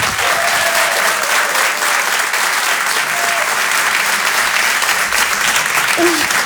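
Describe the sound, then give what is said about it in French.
Applause from a comedy club audience greeting a comedian: dense, even clapping that stays loud and steady for about six seconds, with no break. “Faites du bruit, s'il vous plaît, pour Bruno Becky.”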